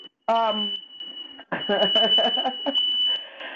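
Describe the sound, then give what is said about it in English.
A fire alarm set off by an open oven sounds a steady, piercing high-pitched tone that runs almost without a break while people talk loudly over it. “Yeah, the oven is open, so the alarm goes off. But that's a fire alarm. But there's no fire. It's just very sensitive.”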